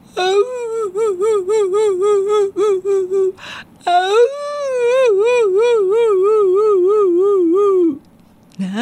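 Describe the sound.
A wailing cry in a children's story: a high, trembling, sob-like wail broken into many short bursts, then one long, sustained, wavering wail that cuts off abruptly.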